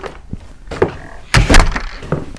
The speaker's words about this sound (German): Zurück am Klassenzimmer angelangt, öffnete Tom die Tür.